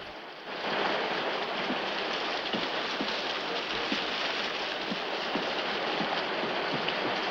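Steady rain falling at night makes a dense, even hiss throughout, with faint scattered drops ticking through it and no voices.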